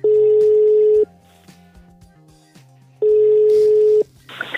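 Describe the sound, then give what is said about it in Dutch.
Telephone call being dialed, heard as two long, steady, loud electronic beeps separated by a silent pause, followed by a brief softer noise at the end. “Reden te meer om hem eens te bellen.”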